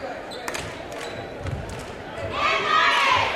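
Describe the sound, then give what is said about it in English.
Dull thuds of a basketball bounced on a hardwood court before a free throw in a women's game, a few soft hits under a steady crowd murmur that swells louder toward the end. “One quick dribble, shot it, and rattles home.”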